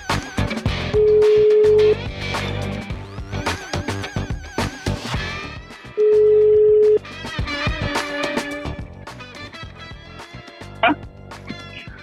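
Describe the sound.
Ringback tones from an outgoing phone call: two steady, one-second tones about five seconds apart, sounding over busy background music.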